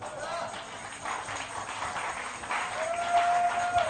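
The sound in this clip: Church audience clapping during an evening sermon session: a steady, dense wash of hand claps that holds at a moderate level and swells slightly toward the end.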